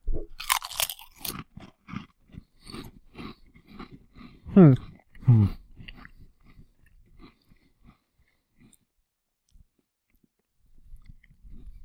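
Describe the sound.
Crunching on a snack coated with flavor dust: many loud, crisp crunches in a quick burst at the start, then softer chewing crunches that trail off into quiet.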